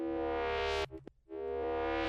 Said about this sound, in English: Oh, I don't have any effects on here. The distortion must be coming from something over here. Overdrive. Overdrive combined with this.